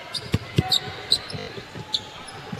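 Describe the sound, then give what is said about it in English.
A basketball bounce pass thumps off the court during a game, a few short, dull low thuds amid crowd noise and a commentator talking. “Bounce pass made.”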